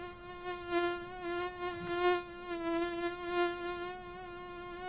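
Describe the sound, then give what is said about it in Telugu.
Mosquitoes buzzing close by the ear: a continuous high, thin whine rich in overtones. Its loudness gently swells and fades as the insects drift about. “బయట ఎండలకు బయటపడి అంటే భయపడి ఇంట్లో దాక్కుంటే ఈ దోమల మ్యూజిక్ బ్యాండ్ మన చెవి దగ్గర కచేరీ మొదలుపెట్టేస్తూ ఉంటాయి కదా.”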